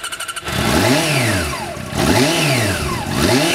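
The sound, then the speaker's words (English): A loud modified motorcycle engine starts and revs: a few quick chugging pulses give way to a rough roar, then throttle blips swing the pitch sharply up and back down three times. “And that bike? It's loud, clearly modified, right?”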